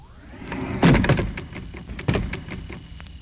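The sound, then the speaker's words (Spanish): Creaking and cracking of wooden boards from a broken coffin: two sharp, loud cracks stand out, with smaller creaks and knocks scattered between them over a low rumble. “Se ha de haber roto el cajón donde la enterraron, porque se oye como un crujir de tablas. Sí, yo también lo oigo.”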